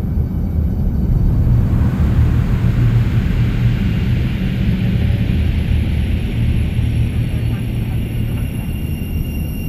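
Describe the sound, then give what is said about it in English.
Rumbling engines of a spacecraft taking off roar as a loud, dense, continuous drone with deep low rumble and hiss, holding steady for the whole stretch. “Ladies and gentlemen, we've been granted clearance for an immediate takeoff. Please make sure all restraints are fastened and all electronic devices are switched to interplanetary mode.”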